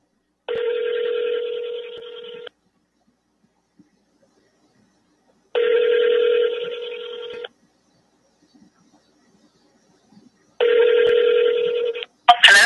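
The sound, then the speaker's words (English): A telephone rings for an incoming call: three long, even electronic rings separated by silent gaps, then a short click at the very end. “Here's the call. Listen to how nervous Janet Woodcock got with him calling her.”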